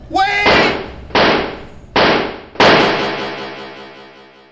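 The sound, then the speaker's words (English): Police fire four loud gunshots, spaced unevenly about a second apart. Each sharp blast decays into a ringing tail, and a brief shout comes just before the first. “Wait! They shot me. 4 times. The leg, gut, and chest. 2 in the chest.”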